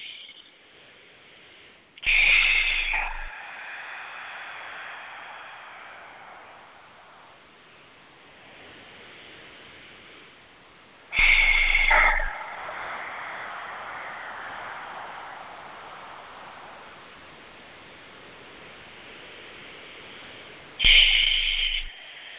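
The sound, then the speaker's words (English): Long, slow, deep breaths taken during meditation: three loud, airy bursts at evenly spaced intervals, with softer steady breathing noise between them and no talk. “We want to just center ourselves by taking some long, slow, deep breaths. So let's do that. Just centering, slow, deep breaths.”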